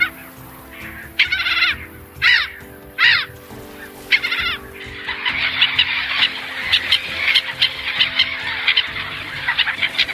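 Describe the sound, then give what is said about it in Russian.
Black-headed gulls call, first with a few loud, harsh, nasal cries standing apart, then a dense chorus of many overlapping squawks from a large flock. “А сейчас вы слышите голос озерной чайки.”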